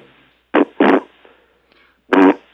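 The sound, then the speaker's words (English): A voice imitates a nearly empty ketchup bottle being squeezed, making three short, loud, sputtering bursts of air: two close together, then one more after a pause. “You know the noise it makes when you squeeze the ketchup bottle and it's almost empty”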